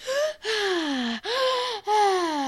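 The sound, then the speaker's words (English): A person takes a deep breath in, voiced as four loud gasping inhalations with short pauses between them. Each carries a tone that slides downward in pitch. “what is that, taking a deep breath?”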